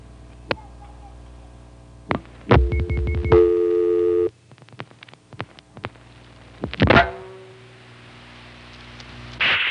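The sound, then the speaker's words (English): Telephone line tones and clicks while a vacant local number is dialed: a few sharp clicks, a steady buzzing tone lasting about two seconds, then scattered clicks and a brief noisy burst, with more faint clicks near the end. “Now let's just dial a local vacant code.”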